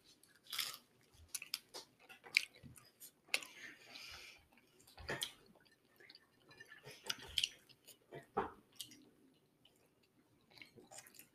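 Wet, crunchy chewing of food dipped in Chick-fil-A sauce: many irregular clicks, smacks and bites in uneven bursts, sometimes loud and sometimes trailing off into quiet gaps.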